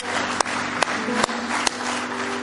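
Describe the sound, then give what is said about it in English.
A church audience claps in praise during a service, a loud, sustained wash of hands clapping with a few sharper claps standing out at regular intervals. “Give him one more hand clap of praise if you love him tonight.”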